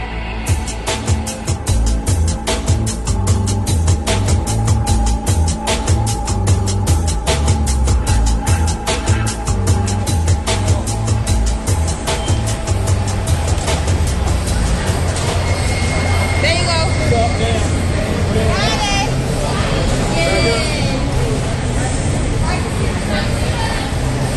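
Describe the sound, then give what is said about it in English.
Crowd din inside Carmichael Gym during a record-attempt blood drive with over 1,000 donors and volunteers: a loud, steady wash of many overlapping voices, with a rapid regular clatter running under the first half. “This was the sound of the Carmichael Gym on Friday, where over 1,000 donors and volunteers turned out to try and break the record set by Appalachian State.”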